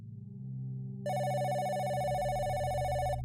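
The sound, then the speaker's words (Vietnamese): A telephone rings: after about a second of low background hum, a bright, continuous trilling ring starts and holds steadily to the end. “Có tiếng chuông điện thoại vang lên.”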